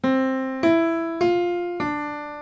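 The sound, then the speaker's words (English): A short example melody of four evenly spaced notes in a bright tone. Each note strikes clearly and then fades before the next, and the pitches move in small steps. “If the original melody sounded like this,”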